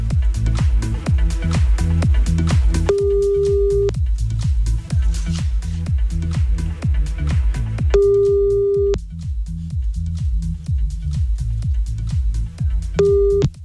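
Ringback tones of an outgoing telephone call: three steady, mid-pitched beeps, each about a second long and roughly five seconds apart, over a loud, pulsing music bed.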